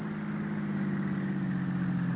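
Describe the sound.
A car engine runs as the car pulls up to a house's front steps, a steady low hum with no change in level and no voices.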